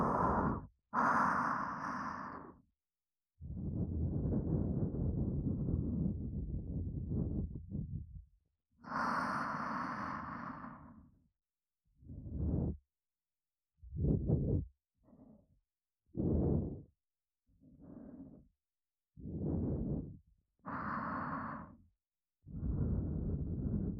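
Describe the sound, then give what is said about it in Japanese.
Gentle blowing of breath, a long series of soft, airy puffs and exhalations separated by short pauses, some drawn out and others brief, quiet and breathy with no talk. “それじゃあふうってしますね。いきますよ。”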